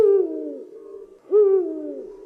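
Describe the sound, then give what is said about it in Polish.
A Eurasian eagle-owl gives two deep hoots separated by a short pause. Each is a low, resonant note that slides gently downward and fades, with no other sounds around them. “To może jeszcze puchacz?”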